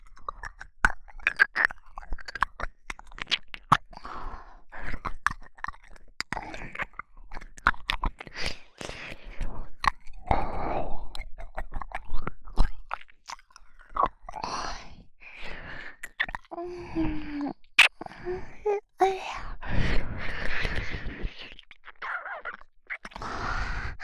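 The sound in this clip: Wet ear-licking mouth sounds in an ASMR recording: a continuous stream of many soft smacks, clicks and slurps, quiet and close, with occasional breathy sighs.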